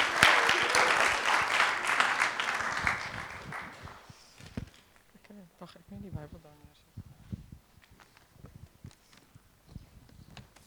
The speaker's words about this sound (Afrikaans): Julle mag my hande klap vir hom